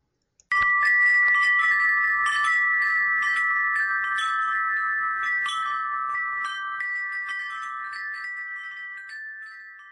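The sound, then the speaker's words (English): Wind chimes hanging in a kitchen doorway burst into a cluster of bright metallic strikes. Overlapping high, ringing tones then sustain and slowly fade over about nine seconds. “The sound you just heard, I recorded with the WS200S recorder, and they are our chimes that we have hanging in the doorway, which has no door, I guess the entrance to our kitchen.”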